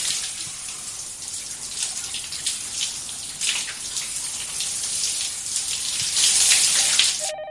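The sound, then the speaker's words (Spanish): Water running from a shower as a man ducks and turns beneath the shower head: a steady, bright rushing hiss throughout, growing slightly louder toward the end. “Se agacha bajo la alcachofa y gira bajo el agua.”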